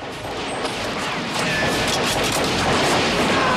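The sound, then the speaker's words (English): A volley of gunfire: dense, overlapping shots and crackle run without a break and grow slightly louder partway through, with no voices. “He's mown down in a hail of gunfire.”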